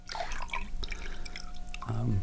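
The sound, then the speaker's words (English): Water drips and trickles in a bowl of warm water holding a strip of yellow cedar bark, giving a busy run of small, bright splashes that grows fuller toward the end. “This is a bowl of warm water with a strip of cedar bark.”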